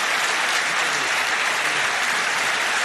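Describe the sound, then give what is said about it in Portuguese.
Sustained applause from an audience honoring a late artist: a dense, even wash of many hands clapping at once, continuous and fairly loud throughout, with no voices standing out. “Ele merece aplausos, este artista. Vamos ouvir os aplausos”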